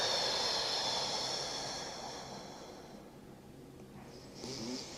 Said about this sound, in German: Du atmest kurz aus und du konzentrierst dich vor allem aufs Ausatmen durch den Mund.